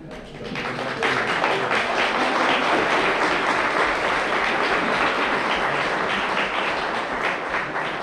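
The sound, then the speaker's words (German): Applause from an audience at a talk on feminist psychoanalysis, a dense, steady clatter of many hands clapping that builds within the first second and holds loud and even for about eight seconds. “Erstmal danke für Ihren Applaus.”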